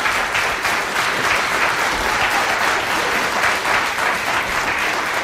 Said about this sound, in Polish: Ja bym z tymi oklaskami na wszelki wypadek jeszcze trochę poczekał